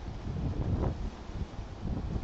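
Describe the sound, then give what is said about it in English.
Strong wind on a ridgetop buffets the microphone in a continuous low rumble that swells and eases in gusts, with no voices. “We have a lot of wind right now. I hope you guys can hear me okay. It's crazy. I'm on a ridgetop.”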